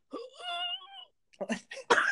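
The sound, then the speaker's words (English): A human voice imitates a strained, constipation-like grunt. A drawn-out groaning moan is followed by a few short, breathy pushes and exhales. “It's like almost like they're constipated. It's like a constipation grunt. Can we hear your impression of that?”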